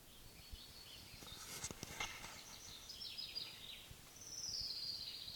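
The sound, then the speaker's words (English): Song of a Pines ground warbler: high, thin, faint trilled phrases, the last one longer and buzzing, over soft background noise. “Pines Ground Warbler number one.”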